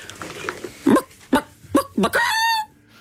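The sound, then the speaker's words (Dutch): A human voice imitates a hen's cackle after laying an egg. A few short, sharp clucks lead into a longer, drawn-out, higher-pitched cackle, loud and close. “dan moet ik eerst even mijn keel in de kippenstand krijgen.”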